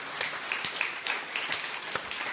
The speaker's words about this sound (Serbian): I aplauz.